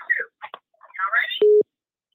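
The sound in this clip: A single short, steady electronic phone-line tone marks an incoming call during a Christmas giveaway call-in, following a few bursts of talk.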